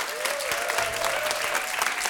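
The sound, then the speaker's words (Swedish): Applause for a backing band after a performance: dense, steady clapping that stays even in loudness for about two seconds without a break. “Applåder från honom och applåder för gänget som backar upp här. Bandet. Applåder!”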